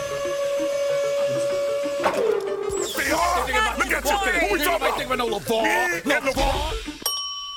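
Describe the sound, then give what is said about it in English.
A printer-like whirring sound effect used as a comic hot take machine, with mechanical whirring and warbling tones that end on a short bell-like ding. “Do we have the hot take machine? Yeah. Do we need to run it through the hot take machine? Because it is Fire Friday.”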